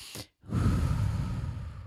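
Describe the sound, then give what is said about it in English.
A deep breath: a quick, sharp inhale, a brief pause, then a long, steady, breathy exhale that carries on to the end. “I really want you to just take a deep breath with me”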